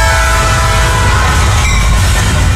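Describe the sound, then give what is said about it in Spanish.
A train passing on a railway line, a loud dense rumble and rattle that holds steady throughout, with no voices. “Un tren a 25 kilómetros por hora recorre 200 metros antes de detenerse. Para, mira, escucha antes de cruzar la línea férrea.”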